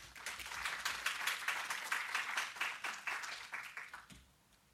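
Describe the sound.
An audience applauds a speaker's introduction at an art lecture, a steady, even patter of many hands clapping that holds, then quickly dies away just before the end.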